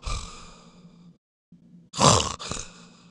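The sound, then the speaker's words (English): A voice imitates agonal breathing that resembles snoring, producing a few harsh, rasping, groan-like breaths with a pause between them. The last breaths are the loudest and roughest. “and that can sound all the world like snoring, but, sometimes it's just that rhythmic, automatistic brainstem breathing”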